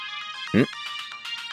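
Mobile phone ringtone announcing an incoming call: a sustained, bright melodic tone that carries through the whole clip, with one brief louder burst partway through.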